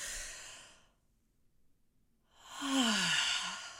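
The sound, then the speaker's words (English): Slow breathing during a guided breathing exercise, in through the nose and out through the mouth: a soft airy breath fading out, a quiet pause, then a longer, fuller breath with a slight sighing tone, all faint. “So we're going to breathe in through our nose,”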